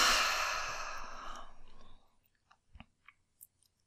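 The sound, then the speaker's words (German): A deep breath out through the mouth during a guided relaxation exercise: a long, breathy exhale starts loud and fades over about two seconds, followed by a few faint soft clicks. “Und dann atme nochmal tief ein durch die Nase. Ausatmen durch den Mund.”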